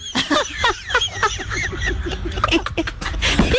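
A bird calls in a rapid run of many short, squawking chirps with sharply sweeping pitch, fairly loud over a low background rumble.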